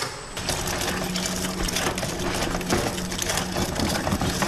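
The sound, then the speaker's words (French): A wrapping machine individually packs square five-gram amber bergamot candies from Nancy, giving off a dense, continuous mechanical clatter and rattle that holds at a steady level throughout. “Les bonbons ambrés sont ensuite tamisés. Puis emballé individuellement à l'aide d'une redoutable machine.”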